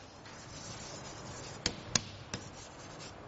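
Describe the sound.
Handwriting on a page while annotating notes, heard as a faint, steady scratching with a few sharp taps of the pen in the second half.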